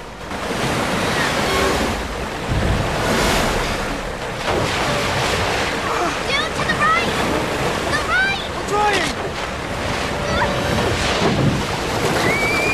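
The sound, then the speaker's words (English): Boat rushing at speed on a wave of water through an underground river: a loud, steady roar of surging water with windy noise throughout, and a few short high chirping tones in the middle. “The boat continues rushing at speed on the wave of water.”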